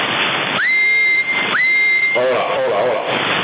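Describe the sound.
Two sustained, steady high whistles come through a CB radio transmission on the 27 MHz band, each sliding up quickly at the start and then holding a flat pitch, with constant radio hiss underneath and a brief voice afterward.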